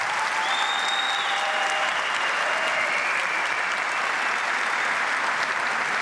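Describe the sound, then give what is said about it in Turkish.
Loud, sustained applause from an audience at a ceremony where a Palestinian guest stands with the country's president, a continuous dense clatter of clapping at an even level throughout. “Filistinli kardeşimiz şu anda kuvvetli bir alkış rica ediyoruz.”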